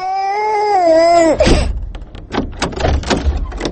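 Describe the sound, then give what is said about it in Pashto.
A baby cries in a steady, wavering wail that breaks off abruptly, followed by a run of scattered knocks and thumps, loud and with no voices. “ماشوم خو ژاړي، اوس به یې غلی کړم.”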